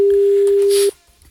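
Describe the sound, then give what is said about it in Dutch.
A telephone tone sounds as a call is being dialled to a fish marketing office: a single steady, mid-pitched tone held for just under a second, then cut off abruptly, leaving only faint low noise. “gaan we bellen van het Nederlands Visbureau. Maar zij weet niet dat wij dit doen.”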